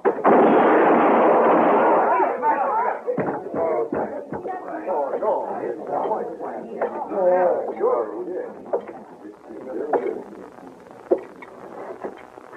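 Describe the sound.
Gunshots fire during a tense armed standoff in a radio drama: a few sharp, sudden reports cut through urgent shouted dialogue between men and a woman.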